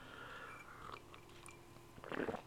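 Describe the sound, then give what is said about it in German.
A short slurping sip of coffee near the end, a quiet breathy burst after a faint, steady hush, with no talking. “Ich hoffe, ihr genehmigt mir diesen Schluck Kaffee”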